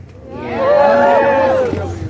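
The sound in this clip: A rally crowd cheers and shouts, the noise swelling to a loud peak with one prominent drawn-out voice carrying above the mass before the cheering eases slightly.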